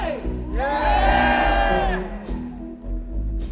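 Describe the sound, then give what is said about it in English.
A crowd of audience members shouts a long, loud, drawn-out "yay" together, rising into a sustained cheer with whoops, then trailing into scattered shouts and murmur. “Can I hear you say yay?”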